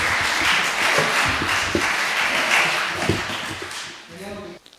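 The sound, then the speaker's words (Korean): Applause from a church audience welcoming a missionary to the front: a dense, steady wash of many hands clapping, thinning out near the end as a voice comes in. “여기 선교사님 나오실 때 어떡할까요? 박수로 환영하겠습니다.”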